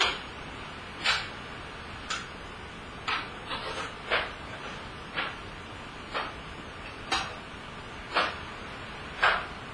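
Kitchen timer ticking with steady, sharp, fairly faint clicks at roughly one per second, heard alone with no voices.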